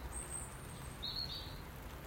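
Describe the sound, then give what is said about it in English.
Faint bird calls from a blackbird in a garden: two brief, thin high chirps over a steady low background hiss. “I'm saying it's Mr. Blackbird.”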